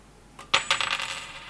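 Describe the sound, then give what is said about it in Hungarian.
A Hungarian 50 forint coin is set onto the edge of a balanced playing card with a few quiet metallic clinks that ring briefly and fade, faint against a soft steady hiss. “Adok 50 forintot. Ha az egyensúly akkor is megmarad, ha ezt az 50 forintot a szélére tesszük.”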